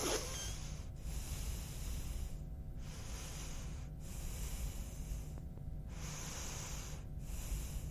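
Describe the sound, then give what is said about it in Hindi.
Long, deep breaths are drawn in and let out in slow succession, each a loud, airy rush separated by brief quiet gaps, with no talking over them. “तो ये कीजिए, यानी कि लंबी गहरी सांस लीजिए और फिर देखिए क्या चमत्कार वहां पर होता है। जी हाँ, तो आइए सबसे पहले वही करते हैं।”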